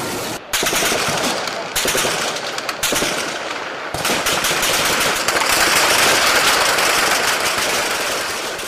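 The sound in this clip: Heavy gunfire crackles across a capital city in dense, nearly continuous bursts of rapid shots that stay loud throughout, with no voices.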